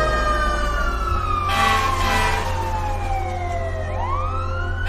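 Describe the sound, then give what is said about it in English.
Wailing fire truck sirens as two fire trucks race past, their tones sliding steadily downward before a fresh rising wail starts, over a continuous loud rumble of engines and traffic. “as two fire trucks race past”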